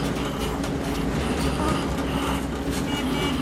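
Military trucks rattle along a road in a continuous, loud, rumbling clatter that holds steady throughout, with no distinct separate events.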